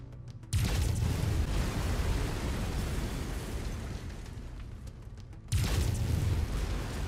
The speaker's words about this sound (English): Lasers are mapped to weapon group two. Fire them when ready.